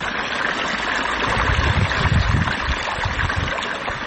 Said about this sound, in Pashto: د کوکنارو تازه کرل سو کښتونو ته اوبه ورکوي